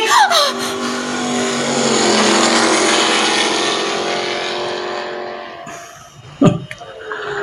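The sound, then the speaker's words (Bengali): A private car arrives on a winter night, its engine droning steadily and swelling, then easing off, followed by a sharp knock and a short burst of noise near the end. “উঠে আসুন, পুলিশের গাড়ি নয় private.”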